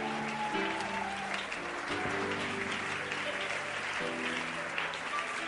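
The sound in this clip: Applause from a church audience acclaiming the Lord, a steady spread of clapping heard over sustained musical tones that shift between chords.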